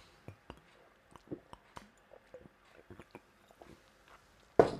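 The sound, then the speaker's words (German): A glass bottle of Fritz cola being opened and drunk from: many short, soft clicks and gulping sounds in an irregular rhythm, ending in one sudden, much louder burst. “zum gemütlichen Podcasten gehört bei mir ja immer oder fast immer eine Fritz Cola. Die musste ich jetzt mal kurz öffnen, die muss ich jetzt auch mal kurz trinken.”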